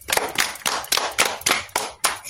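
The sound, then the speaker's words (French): An audience applauds in loud, rhythmic bursts of clapping, about eight sharp pulses in quick succession with brief gaps between them. “Bravo les amis, vous êtes formidables. Applaudissez-vous.”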